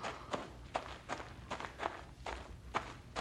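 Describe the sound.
Footsteps of people walking along together, a steady series of crisp steps at an even walking pace, each step a short scuffing thud, with no talk.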